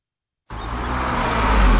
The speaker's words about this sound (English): Is that your exhaust? Oh, yeah. Running rich.